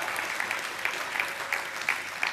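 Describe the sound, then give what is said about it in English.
Church audience applauding after being urged to clap louder for a healing, a steady, fairly faint patter of many hands with a few sharper claps standing out. “Oh, you can clap better than that.”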